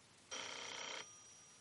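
A single telephone ring in an office, one short buzzing electronic trill lasting under a second, fairly quiet, followed by silence.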